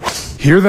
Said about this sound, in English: That's the sound of a 300-yard drive in January.